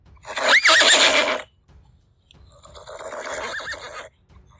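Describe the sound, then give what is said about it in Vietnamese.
A horse whinnies as it rears up on its hind legs on grass, front legs raised high. A loud, quavering neigh comes first, followed by a softer, longer second whinny. “Bà mã dưới người hắn đột nhiên dừng lại, chân trước chồm lên không, gần như thành một góc 90 độ so với mặt cỏ. Cất tiếng hí như không dứt”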